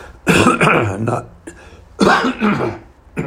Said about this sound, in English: Just a little something in my throat. A guy who is a professional or polished wouldn't be coughing anyway.